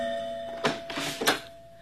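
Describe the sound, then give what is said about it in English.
A doorbell rings inside a home, two bright chimes about half a second apart, each ringing briefly before fading. “I was at home when my doorbell rang.”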